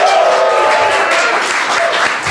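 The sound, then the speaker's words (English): A live audience at Mozilla's Glass Room in San Francisco applauds in a steady, dense burst of clapping that stays loud and eases slightly at the end. “We've got a crowd. The crowd is here.”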